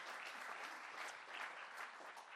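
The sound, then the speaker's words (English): A church audience gives a round of applause for Jesus during a morning service, a steady, even patter of many hands clapping alone, fairly faint throughout. “Let's give Jesus a huge round of applause this morning.”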